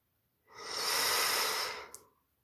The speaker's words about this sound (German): Und jetzt nimmst du einen tiefen Atemzug.